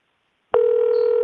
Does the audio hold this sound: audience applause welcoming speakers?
no